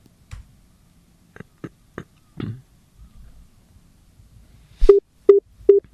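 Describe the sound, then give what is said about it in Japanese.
Telephone dialing tones: three short, evenly spaced beeps come near the end. Scattered soft clicks, like button presses, precede them in near silence. “じゃあ早速電話してみましょうか”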